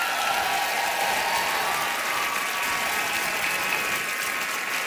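Applause from an audience of nearly 2,000 fans at an onstage interview at Massey Hall in Toronto, a dense, even wash of clapping that continues without a break.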